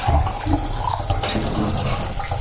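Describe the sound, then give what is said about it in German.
Running tap water as a cup is rinsed after drinking cappuccino, a loud, steady splashing rush that continues unbroken throughout, with no talking. “Tasse erstmal abspülen.”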